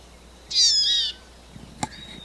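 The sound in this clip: A wild female bird calls over a captive bird: one loud, high, thin call lasting about half a second, followed by a sharp click and a fainter, thin whistle near the end.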